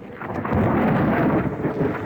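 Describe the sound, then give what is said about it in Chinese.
Thunder rumbles outside a palace hall ahead of heavy rain, a deep, broad roll that swells after a quieter opening and stays strong and steady throughout, with a rain-like hiss blended in. “殿外响起了雷声，一场大雨很快就下来了。”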